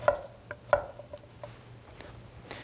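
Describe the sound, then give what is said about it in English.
A knife roughly cubing food on a board gives a few sharp, irregular chopping taps, some crisp and loud, others softer, spaced unevenly with quiet gaps between them. “So I'll just cube this up like that, and to go around the edge and then into cubes, very roughly of course.”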